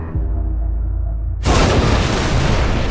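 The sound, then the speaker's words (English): A nuclear warhead detonates in front of a huge defensive shield: a low, steady rumble gives way to a sudden, loud, wideband blast that keeps roaring at full strength to the end. “a great flash as the nuke detonates into a perfect sphere of white-hot plasma in front of the shield”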